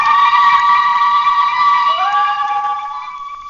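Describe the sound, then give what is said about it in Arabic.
Celebrating women let out a zaghrouta ululation at a family celebration of a son's school certificate: loud, shrill and sustained, with a second voice joining partway through before the sound thins out at the end. “زغروطة يا حبايب زغروطة.”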